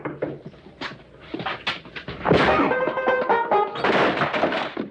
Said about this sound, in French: Il a osé me frapper. Il se rend pas compte.